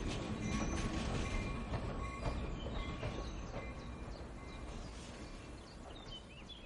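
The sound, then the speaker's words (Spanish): A train pulls away with a rolling rumble and clatter, laced with high metallic wheel squeals, and the level eases down gradually over several seconds. “El tren se va.”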